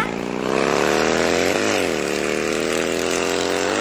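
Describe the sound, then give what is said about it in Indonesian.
A ridden motorbike's engine drones loudly and steadily, with a brief dip and recovery in pitch partway through. “Aduh, anak itu mau kemana lagi? Kecanduan banget nih kayaknya sudah. Aduh, bawa motor terus lagi.”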